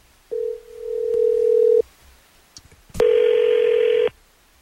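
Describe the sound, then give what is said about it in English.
A telephone sounds as a call is dialed: a steady dial tone, then a few short clicks or beeps, then a second long, buzzier tone that stops abruptly. “We got the number, and let's just call her, see what she says.”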